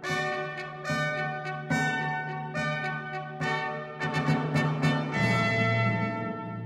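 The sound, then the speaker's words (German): Church bells peal through the streets of Munich during a royal proclamation, with many loud, ringing strikes in overlapping succession and rich tones that sustain and blend into a continuous clangour. “begleitet von Glockengeläut und Kanonendonner, durch die Straßen der Haupt- und Residenzstadt München.”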